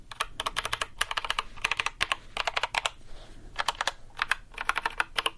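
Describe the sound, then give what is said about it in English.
Rapid typing on a mechanical keyboard with Holy Panda switches and Everglade stabilizers: dense, crisp keystrokes clatter in several quick bursts separated by short pauses, fairly loud and heard alone. “I don't know if there's a difference between Holy Panda and Holy Panda X, but this one said Holy Panda, and the other one said Holy Panda X. I feel like, yeah. And this is the Everglade Stabilizers.”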